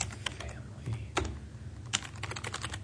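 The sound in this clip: Typing on a computer keyboard while entering a search into a shopping website: many light, irregular key clicks of varying strength, with a few sharper taps standing out.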